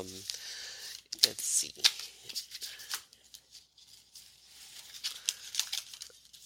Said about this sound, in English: So I was just pulling out some cards yesterday. And so let me just pull out two cards and let's see what happens.